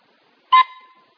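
A single short horn toot heard alone: a loud, bright burst that quickly drops into a softer, fading tone.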